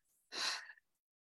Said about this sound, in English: Breathe all of your air out through your mouth,